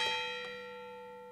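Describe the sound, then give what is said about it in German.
Church bells of the castle church on the Schlossberg in Altenburg ring with a couple of struck tones that leave a steady, humming ring slowly fading away, faint and alone. “Sommerschattig, aber mit den Glocken der Schlosskirche schon musikalisch.”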